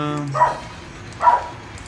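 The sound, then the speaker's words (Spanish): A dog barks twice, two short, sharp barks about a second apart, with a fading tonal note just before the first. “vamos a callarle a los perros.”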